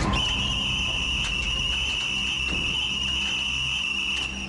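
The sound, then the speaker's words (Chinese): A whistle blown hard by a platoon leader at an officer cadets' mess-hall meal gives one shrill, unbroken tone. It stays loud and steady for about four and a half seconds. “区队长将哨子再含进嘴里，用力一吹，”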